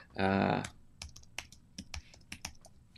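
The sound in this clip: Typing on a computer keyboard: after a brief voiced sound at the start comes a sparse run of sharp, uneven key clicks separated by short pauses.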